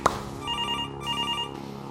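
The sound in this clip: A telephone rings in two trilling bursts of bright, buzzing tone, separated by a short gap and preceded by a brief click. No one speaks.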